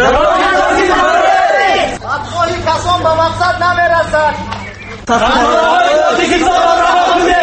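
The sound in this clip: Journalists at a protest chant slogans together in a loud, rhythmic crowd roar. The chanting drops in the middle, where a single voice speaks over the quieter crowd, then the chant surges back.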